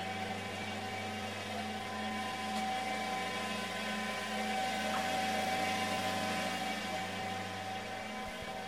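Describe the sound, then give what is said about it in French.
A textile combing machine draws fibre slivers through, producing a steady, faint mechanical drone with a constant tonal hum and no clear breaks or changes. “on va faire traverser les rubans dans la machine. Et donc on passe d'un ruban à un ruban, il est juste mieux peigné en traversant la machine.”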